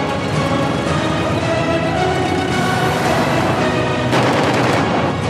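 Rapid gunfire rattles in dense, continuous bursts, loud and harsh throughout, with a sharper, brighter volley near the end.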